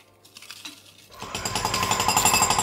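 Construction site noise begins after a quiet opening: loud, rapid, pulsing hammering like a jackhammer, with machinery din, builds in about a second and then stays harsh and constant.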